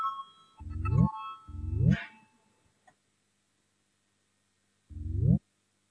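An electronic voting signal sounds in the Latvian parliament (Saeima): three short tonal bursts that each rise in pitch, two close together, then a pause before the third.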